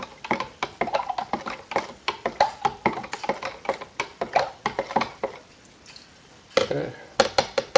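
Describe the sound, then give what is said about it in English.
Paddle stirring liquid black-and-white film developer concentrate, making many quick rhythmic sloshing knocks with a brief pause partway through. “So I have a paddle here now. I'm going to mix it up.”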